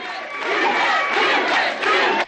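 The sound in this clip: A jeering crowd at a mill protest outside a fence: loud, sustained shouting and yelling from many voices that holds steady, then cuts off abruptly at the end.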